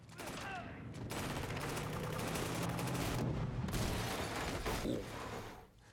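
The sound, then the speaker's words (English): Automatic weapon gunfire from an action film scene: a loud, dense, continuous stream of rapid shots lasting several seconds before cutting off abruptly. “Ooh, reload. And let's do an automatic weapon to the face.”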